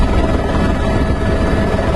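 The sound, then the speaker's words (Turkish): Steady, dense helicopter roar as it flies over a snow-covered camp during a rescue search for workers buried in deep snow. The engine and rotor noise is continuous and loud, with no voices. “helikopterlerin ise karla kaplı kampın üzerinde uçtuğu görüldü.”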